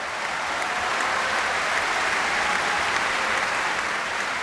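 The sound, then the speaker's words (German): Stormy applause for pianist Lang Lang and the Vienna Philharmonic under Tugan Sokhiev after their performance of Ravel's Piano Concerto in G major. Dense, even clapping holds steady and loud throughout, with no voices rising above it. “stürmischer Applaus und große Begeisterung für Lang Lang und die Wiener Philharmoniker unter Tugan Sokiew für ihre Interpretation des Klavierkonzerts in G-Dur von Maurice Ravel.”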